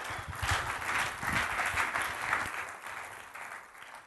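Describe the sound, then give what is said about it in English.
Applause from an audience welcoming a speaker, a dense burst of clapping that holds steady and then thins out and softens toward the end. “Give him a welcome. Put your hands together.”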